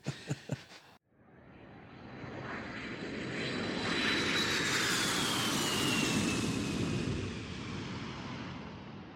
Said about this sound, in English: We're parking the brake, and JetBridge is coming up to the airplane.